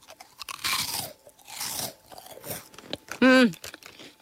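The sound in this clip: Someone bites and chews a crunchy, bite-sized cheese snack, producing loud, crisp crunches in a few short bursts.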